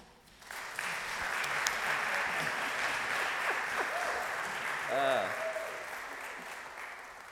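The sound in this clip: An audience at a worship service applauds to welcome its co-annual giving chairs. The clapping is a soft, steady wash throughout, and a brief voiced cheer rises near the end.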